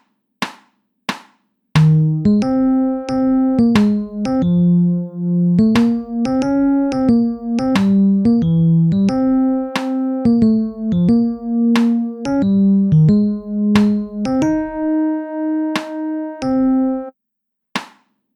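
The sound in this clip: Sharp metronome clicks tick steadily. After two lead-in clicks, a melodic line of pitched notes enters on beat three, and the clicks keep time under the music until it stops, with a final lone click.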